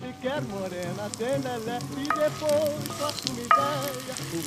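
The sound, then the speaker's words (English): Vegetables sauté in oil or butter, giving a continuous crackling sizzle with small pops and stirring sounds, moderately quiet and steady throughout. “Saute your vegetables in some kind of fat, like oil or butter.”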